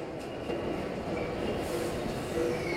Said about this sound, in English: As a train pulls in and the doors slide open, he steps into a carriage.